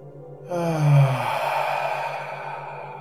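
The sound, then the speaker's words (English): Deep breathing during a guided heart-focused exercise: a slow breath in through the nose and out through the mouth, heard as a soft airy rush that begins after a short pause and gradually fades over several seconds above a steady low hum. “take a couple of deep breaths in together, in through the nose and out through the mouth”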